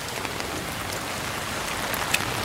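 Rain falls steadily on an outdoor running spot with an uphill slope, making a continuous, even hiss of drops with faint scattered patter and one slightly sharper tick near the end.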